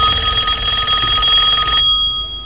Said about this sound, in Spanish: De pronto, el timbre del teléfono lo sacó de sus pensamientos.